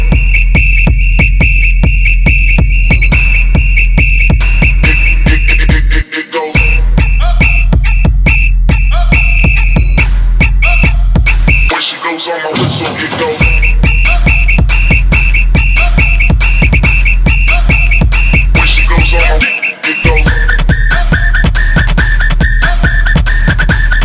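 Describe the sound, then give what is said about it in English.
A loud, shrill whistle holds a steady high tone for long stretches, broken by a few brief gaps, over a constant low hum. “on my whistle, it goes.”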